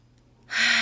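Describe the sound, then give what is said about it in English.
A deep, forceful breath drawn in through the nose during a relaxation exercise. After near silence, it arrives as a sudden loud airy rush that holds steady to the end. “take a deep breath through the nose and exhaling through the mouth.”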